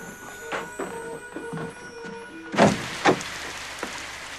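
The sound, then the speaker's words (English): A front door is opened, with a loud knock-like thump and a second thump shortly after, among faint, scattered softer sounds. “She runs to the front door.”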